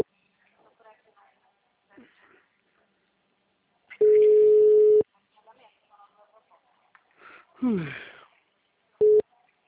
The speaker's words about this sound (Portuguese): Não atendeu na primeira vez, tô ligando de novo.